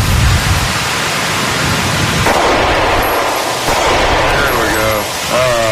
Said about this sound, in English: He shot about 15 rounds in about 16 seconds. He reloaded in 5 seconds and was able to get off two more rounds pretty quickly.